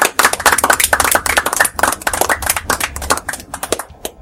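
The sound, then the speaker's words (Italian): Hand clapping from guests at a dinner gathering: many sharp, loud claps in an uneven, quick patter from what sounds like a small group, continuing throughout. “Applausi.”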